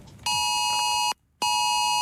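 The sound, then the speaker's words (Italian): Amber Alert emergency alert tone on smartphones and TV: a loud, harsh, steady electronic tone sounds, breaks off for a moment, then resumes at the same pitch. “Inizia così, preceduto da un inconfondibile segnale sonoro, un messaggio irrompe contemporaneamente sugli schermi di smartphone e TV. È l'Amber Alert”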